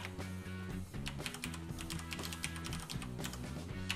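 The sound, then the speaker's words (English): Typing a password on a computer keyboard while changing a user account password, a quick, steady run of many small plastic key clicks with an uneven rhythm and no voices. “and I have to type it in. And they have to match.”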